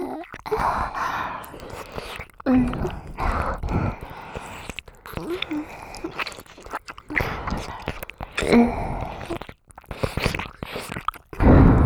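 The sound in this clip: Wet ASMR mouth sounds of ear eating: soft biting and chewing noises mixed with breathy sighs, coming in irregular bursts separated by brief quiet gaps.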